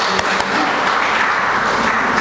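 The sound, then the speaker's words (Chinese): Audience applause welcoming guests at a gathering: continuous, evenly loud clapping from many hands, with a couple of sharper claps near the start. “请起立，然后鼓掌欢迎。”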